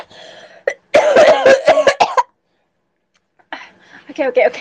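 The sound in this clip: A person with a sore throat coughing and clearing their throat, a rapid run of several harsh bursts framed by quieter voiced sounds, followed by a short silence.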